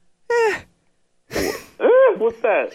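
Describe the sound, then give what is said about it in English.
A man clears his throat with a short rasping burst, set among a few voiced grunts and hums of varying pitch. All of the sounds are brief and separated by pauses. “What's that? Something get caught in your throat?”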